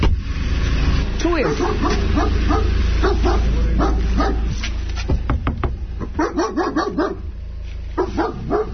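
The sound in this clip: A vučjak, a wolf-like shepherd dog, barks repeatedly in many sharp, uneven bursts, mixed with people talking.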